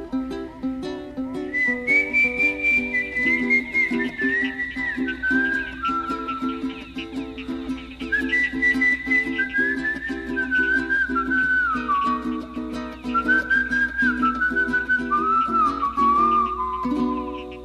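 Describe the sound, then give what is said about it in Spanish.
Slow whistling by a man walking alone across a plain as the hour grows late, a long, clear melody in several drifting phrases that each step downward in pitch, carried over soft, steady instrumental accompaniment. “desliza un silbido lento que todo esto le inspiraba.”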